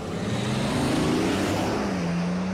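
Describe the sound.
A car accelerates away on a road. Its loud engine drone climbs in pitch and then settles into a steady, level hum.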